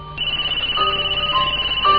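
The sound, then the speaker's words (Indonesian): A mobile phone rings with a bright electronic melody. Sustained tones step between pitches over a steady pulsing beat, heard alone without talk. “suara handphone berbunyi.”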